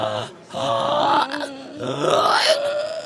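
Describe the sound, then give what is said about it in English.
A human voice imitates a pig's grunt by sounding on an inhale, giving two drawn-out, rough, groaning noises with a brief pause between them. “You can think of it sort of as like making a pig sound, like a... that kind of a thing? Can you do something like that? Like a... that's an inhale?”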